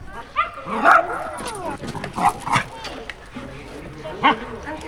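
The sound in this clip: A young dog, nearly a year old, yips and barks in several short, high bursts over a steady background, with people talking alongside.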